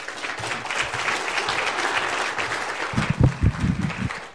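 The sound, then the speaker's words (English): Audience applause welcoming a missions coordinator to the stage, steady dense clapping throughout with a voice breaking in near the end as the clapping continues. “So would you put your hands together and welcome Grace, who is our missions coordinator here.”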